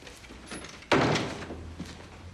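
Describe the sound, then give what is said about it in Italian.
One solid thud of a door being shut, a dull, sudden impact that rises sharply from a quiet background and then fades away. “Vieni, vieni, chiudi la porta.”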